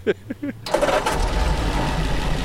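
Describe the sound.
An old vehicle engine cranks and fires for its first start of the day, catching into a loud, steady running rumble after brief talk at the start.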